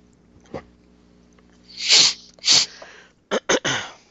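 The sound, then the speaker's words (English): A woman sneezes repeatedly: two loud, breathy sneezes come first, then a quick run of shorter, sharper bursts after a small gasp-like sound. “She's tired of sneezing. Yeah. Tired of sneezing.”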